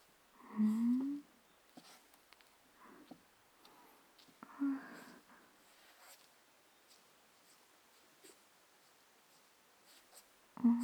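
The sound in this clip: A soft-bristled brush writes on paper: faint, sparse strokes and light rustles scattered across several quiet seconds, with a few slightly louder brushing moments standing out against near silence.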